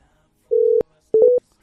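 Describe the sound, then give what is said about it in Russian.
Telephone dialing tones while a number is keyed in to call a debt collector: one longer steady tone, then a quick cluster of several short beeps, clear and alone. “На второй номер набираю.”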